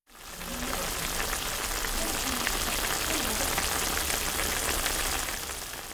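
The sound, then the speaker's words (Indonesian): Vegetables simmer in a pan as the lid is lifted: a bubbling, sizzling hiss swells in at the start and then holds steady and dense to the end. “10分煮ると野菜が柔らかくなり始めるので、ここで調味料を加えます。蓋を取ってみましょう。”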